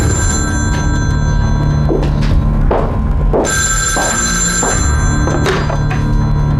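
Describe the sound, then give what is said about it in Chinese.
A telephone rings loudly and continuously over a low steady hum, with a few dull thunks and brief rustles mixed in. No voices are heard. “抱歉，我接个电话。”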